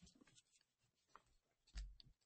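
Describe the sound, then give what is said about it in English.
Faint scratching of a pen or pencil writing predictions on a piece of paper, a few light, uneven strokes with short pauses, heard alone without talk. “And I am going to write our predictions down. Give me 1 second to find a piece of paper.”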